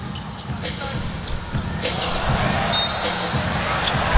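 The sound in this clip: Basketball dribbled on a court during a game: many sharp, quick bounces stand out over steady crowd murmur, irregularly spaced and fairly faint.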